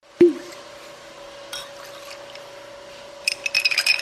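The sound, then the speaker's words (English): A cocktail being stirred at a craft distillery in Haines, Alaska: an opening glassy clink with a faint lingering ring, then quiet, then a burst of quick, bright clinks of ice or spoon against glass near the end. “That's the sound of a Made in Haines cocktail being stirred at the Port Chilkoot Distillery.”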